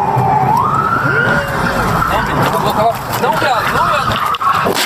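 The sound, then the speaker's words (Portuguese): A police car siren blares as the patrol car overtakes another police vehicle. The wailing tone rises at the start, then holds and wavers loudly throughout, with voices mixed in. “Ligou a sirene? Ultrapassou ali a outra viatura. Ligou a sirene pra fazer o racha, cara.”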